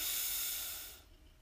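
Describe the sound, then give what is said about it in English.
A deep breath is drawn in during a guided meditation, a steady airy hiss lasting about a second before quickly fading away. “Take a deep breath in”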